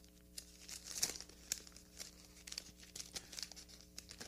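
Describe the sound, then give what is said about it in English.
Book pages turn with a series of soft paper crinkles and rustles that come in irregular bursts. The sounds are faint, with a low steady hum underneath and no talk. “let me get these pages turned”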